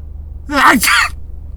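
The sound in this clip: A fake sneeze imitated by a person's voice, starting with a throaty voiced 'ah' that rises and falls, then a breathy burst. A single short outburst, fairly loud, with no other talk.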